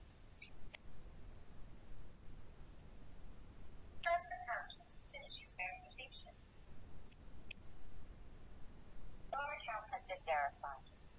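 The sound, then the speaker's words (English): A phone ringing with a call for multi-factor authentication: two short bursts of faint electronic ringing, separated by a quiet stretch of low background noise. “Because multi-factor authentication is still, let's try this again, is still enabled on my account, call me again. So I will answer the phone call.”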